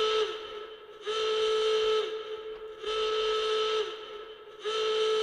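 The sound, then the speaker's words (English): A warning sound effect like a steam whistle: a steady, piercing whistle tone runs throughout, swelling into loud, hissy blasts about a second long, separated by quieter gaps, with no talk. “Where's my little warning sound effect? I've got like a warning. Oh, here it is.”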